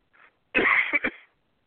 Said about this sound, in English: I'm sorry about the cough.